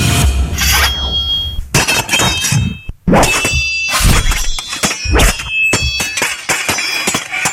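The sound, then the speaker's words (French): Swords clash in many loud metallic clangs and sharp strikes, with ringing high tones lingering between blows and a brief pause near the middle. “Oui, ça me dit quelque chose et je dirais que c'est un son d'épée. Ben oui, ce sont des épées, bravo, c'est gagné !”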